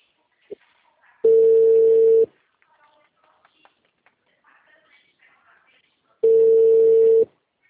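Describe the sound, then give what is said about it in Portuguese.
Ringback tone of a call to a mobile phone: two steady, low beeps about a second long each, separated by a few seconds of near-silence with faint clicks. “vai ter que atender esse celular.”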